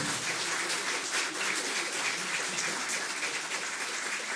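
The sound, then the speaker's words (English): Canned applause from a fake studio audience: a dense, even wash of many clapping hands that goes on without a break at steady loudness, with no talk. “Thank you, fake audience. Thank you so much. You know, you may be a fake audience, but you know what I say? I say the love is real.”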